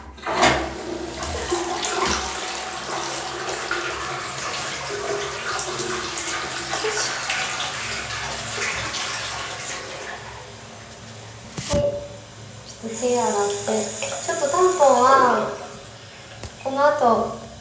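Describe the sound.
Water pours out and is flushed away, a steady rushing gush lasting about ten seconds that then gives way to fainter gurgling bursts as it drains.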